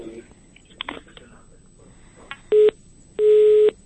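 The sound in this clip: A telephone tone sounds on a radio call-in line after the caller hangs up: two steady mid-pitched beeps, the first short and the second longer, over a faint hiss.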